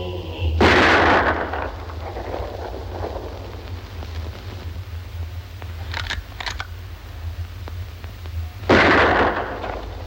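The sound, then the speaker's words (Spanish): Rifle shots fired into the air by a rider among desert cacti: two sharp, loud blasts with decaying tails, several seconds apart, separated by a quieter stretch with faint clicks. “Se detiene, carga su rifle y dispara al aire.”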